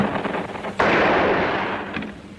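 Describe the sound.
Gunfire in a radio drama: a dense, crackling barrage of shots, with one sharp, loud report cutting in partway through before the firing carries on steadily.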